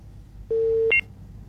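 Line disconnect tone from a dropped phone call during a call-in: a steady low electronic beep lasting about half a second, then a brief higher two-note blip, with only faint hiss around it.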